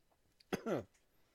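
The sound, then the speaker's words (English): A person coughs and clears the throat after choking on saliva: one short, sharp burst, then a longer, rougher voiced cough, with quiet between. “For those of you listening, I think I just choked on spit.”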